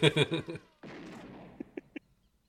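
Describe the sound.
Gunfire from hired soldiers shooting up a garden shed: a sustained rough burst, then three short sharp shots, heard right after a brief voice.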